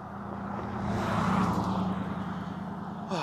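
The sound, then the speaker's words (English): A car drives slowly past on a quiet road just off a highway, its broad engine and tire rumble swelling steadily to a peak midway, then easing off again, with no talk over it. “they drove by me nice and slow”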